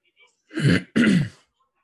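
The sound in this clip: A man clears his throat while watching a fight: two loud, rasping bursts in quick succession, separated by a short gap, with nothing else around them.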